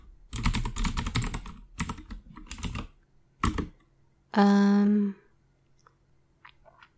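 Typing on a computer keyboard: rapid bursts of light plastic key clicks in irregular clusters with short pauses between them, fairly quiet and without speech.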